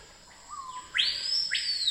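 Birdsong from a single bird: a faint thin whistle, then two bright, loud phrases sweeping sharply upward, ringing clearly over a quiet background.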